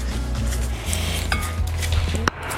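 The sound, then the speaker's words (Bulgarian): Dry ingredients being stirred in a bowl, with soft scraping and light utensil clinks over a steady low hum, and one sharper clink near the end. “Смесваме си сухите съставки, внимателно.”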